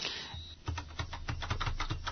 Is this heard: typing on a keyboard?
yes